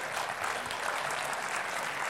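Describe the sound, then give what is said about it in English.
Audience applause during a sermon: dense, steady clapping from many hands, loud and unbroken throughout. “Come on, put your hands together and applaud that.”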